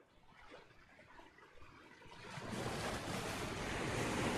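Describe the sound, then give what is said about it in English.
Rough sea waves surge with wind blowing through them, a low rushing roar that swells noticeably louder partway through and stays loud and churning to the end. “You notice that the water starts to get a bit rough.”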